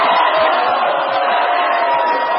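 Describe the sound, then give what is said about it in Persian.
A crowd shouts together in a loud, continuous roar of many voices that holds an even level throughout. “الان که میتونیم داد بزنیم داد بزنیم.”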